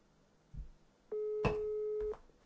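A telephone ringing tone heard while placing a call: one steady mid-pitched tone holds for about a second after a faint click, quiet and without talk.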